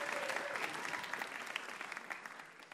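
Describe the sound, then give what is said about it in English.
An audience applauds a bar quiz game winner, with steady, even clapping that tapers slightly toward the end. “How about a hand for our winner and VIP tonight?”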